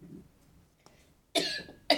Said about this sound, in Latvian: Atvainojiet, nu bet man ir klēpus.